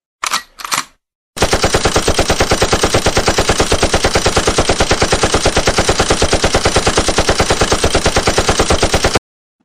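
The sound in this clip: Rapid machine-gun fire as a sound effect: a loud, steady stream of many evenly spaced shots lasting about eight seconds, after a brief separate burst at the start.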